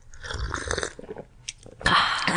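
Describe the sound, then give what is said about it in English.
Someone sips coffee close to the mic for an ASMR moment, with soft wet mouth and lip noises. These end in a louder slurping hiss near the end, and no talk is heard. “Should we do some coffee sips for the ASMR people?”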